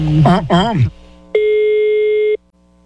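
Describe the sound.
A single telephone ringback tone sounds as a call is placed, one steady beep lasting about a second after a short burst of speech, then quiet.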